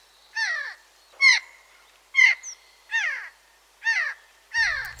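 Eurasian jay giving its harsh, loud call: six raspy, screeching cries at a steady, unhurried rhythm, each short and grating, with little else around them.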